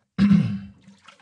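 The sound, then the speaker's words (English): Water sloshes as a person moves through it in complete darkness, bumping into surrounding walls. One sudden swell of splashing fades into a few faint ripples. “The water is still disturbed and I'm bumping into the walls quite a bit.”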